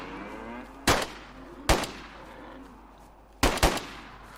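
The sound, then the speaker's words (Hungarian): Pistol shots fired at a cow in a video game: several sharp, cracking reports spaced irregularly, each with a brief ringing tail over a faint background hum. “Még 2 darab golyó van ebben a pisztolyban. Kíváncsi vagyok, hogy ez elég lesz-e, hogy lepuffantsam a tehénkét.”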